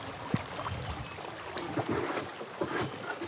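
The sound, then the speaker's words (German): A canoe is paddled on the Ruhr river: soft splashes and a few knocks of paddle strokes sound over a continuous rush of wind and water, with no voices. “Ich hole gerade die Paddel. Paddeln auf der Ruhr.”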